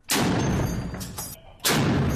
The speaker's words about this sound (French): Tirs de mitrailleuses lourdes en direction d'une vague ligne de front dans le lointain, tirs de mortiers lourds également, à partir d'une cour de ferme